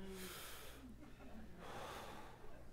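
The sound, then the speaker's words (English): A person takes a deep breath, two long airy rushes of breath noise, an inhale and then an exhale, with no words spoken and a faint low hum underneath. “Everybody just take a second, take a really deep breath.”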